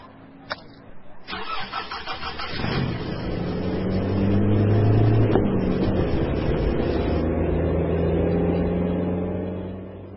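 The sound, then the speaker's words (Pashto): A car engine starting: the starter cranks briefly before the engine catches, then runs with a steady mid-pitched drone that swells in loudness and eases slightly toward the end. “درځه هلکه موټر روان کړه”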